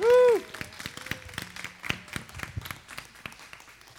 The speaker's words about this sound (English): would you give your support and warmly welcome Theron Jr. to the platform? Come on, everybody. Give it up for Theron.